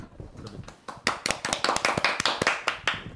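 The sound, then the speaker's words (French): A small group of people clapping together in a steady, even rhythm: many sharp, crisp claps in unison that grow louder after the first second and continue without talk. “Ça je pense que en tant qu'être intellectuellement supérieur, on peut l'applaudir, je pense.”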